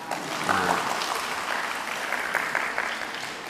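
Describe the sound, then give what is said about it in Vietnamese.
Audience applause at a Buddhist dharma talk. Steady clapping from the gathered listeners holds at an even level throughout, with a slightly louder swell near the start. “Ở đây có khoa Hoằng Pháp không? Sao không vỗ tay?”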